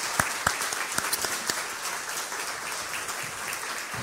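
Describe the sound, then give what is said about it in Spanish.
Applause from an audience welcoming newcomers at a Sunday church service: dense, steady clapping with a few sharper claps standing out early, keeping an even loudness to the end. “Los demás les damos un fuerte aplauso de bienvenida.”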